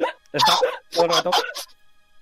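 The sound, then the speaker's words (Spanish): A human voice imitating uncontrollable hiccups, a few sharp, gulping bursts run together in quick, uneven succession, loud and breathy. “Aquiles eh, le viene un hipo incontrolable”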